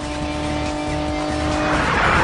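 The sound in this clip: A high-performance electric sports car driving fast, giving a steady high motor whine over broad road and tire roar that grows slightly louder toward the end.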